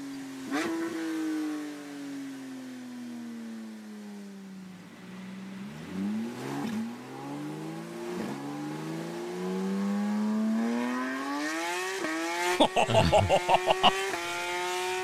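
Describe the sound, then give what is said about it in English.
Engine of a new Porsche GT3 car revving and racing: a smooth, strong engine note that climbs, dips through several quick blips, then rises steadily again to a high, sustained howl. “It does sound mighty good. Yeah, that's the new GT3, by the way.”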